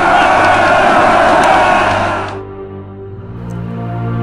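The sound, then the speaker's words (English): A crowd of devils cheers loudly in a dense roar of voices that cuts off abruptly midway, leaving a low hum. “All the devils cheered loudly for him.”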